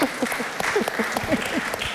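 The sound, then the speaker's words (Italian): Audience applause at a talk, a scattered run of claps, with a voice audible over the clapping. “Facciamo subito un applauso.”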